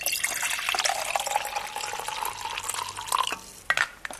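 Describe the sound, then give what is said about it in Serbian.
Hydrochloric acid is poured from a container into a glass for an egg experiment: a steady, bright trickle of liquid, ending in a few splashy drips. “Prvo ćemo uzeti hlorovodoničnu kiselinu i sipati u čašu.”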